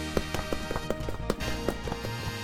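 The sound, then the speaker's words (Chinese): Two brothers race each other down a staircase, their footsteps a quick run of light, rhythmic thuds that is fairly faint throughout. “两兄弟在楼梯口比赛谁比较快下楼，爸爸赶忙跑来拉住他们。”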